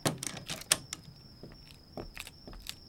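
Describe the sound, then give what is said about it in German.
Sharp mechanical clicks and clacks of a department store door being locked, a quick burst of several rattling clicks followed by a few fainter ones, over a thin, steady high tone. “Gerade schließt dieser Gernegroß die Kaufhaustür zu.”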